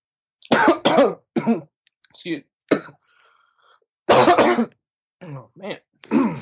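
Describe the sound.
A person coughs and clears their throat after something went down the wrong pipe, several sharp, harsh bursts separated by brief pauses.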